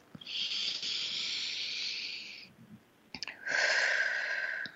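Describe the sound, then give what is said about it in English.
A deep breath drawn in and let out during a guided relaxation moment: two long, soft, airy hisses, each lasting about two seconds, separated by a short pause, heard alone without talk. “So take a breath.”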